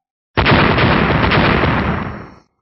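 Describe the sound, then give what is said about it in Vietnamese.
Deafening blast from black, sweet-potato-shaped bombs bursting into black flame: one loud, dense roar that hits abruptly, rumbles steadily for about two seconds, then dies away. “Liên tiếp tiếng nổ đinh tai nhức óc vang lên, từng đoàn hỏa diễm màu đen cực lớn từ cái khoai lang màu đen bạo liệt ra”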